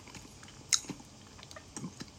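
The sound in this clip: Crisp crunching of cucumber eaten with tuna. A few sharp bites and crunches stand out over quiet, moist chewing, with no talk.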